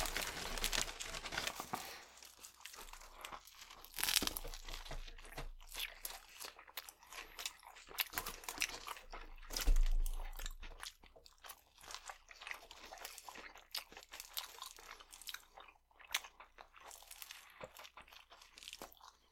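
Someone eating, with faint crunching and chewing of food in many quick, irregular bites and crinkles that continue throughout.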